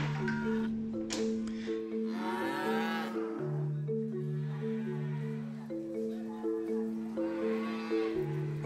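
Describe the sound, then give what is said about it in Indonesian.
Cattle mooing as livestock are brought by their owners into an animal market; low, drawn-out moos overlap and repeat throughout, mixed with steady background noise. “Kemudian, hewan-hewan ternak dibawa masuk ke pasar oleh para pemiliknya.”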